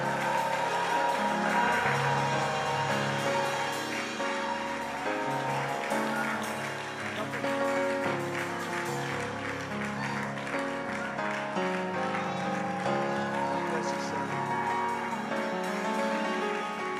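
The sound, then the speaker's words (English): Audience applause welcoming a bishop to the stage at a faith conference, a dense, continuous wash of clapping that holds steady and loud for the whole stretch. “Now, while you're standing, I want you to put your hands together and welcome Bishop Vance Oles.”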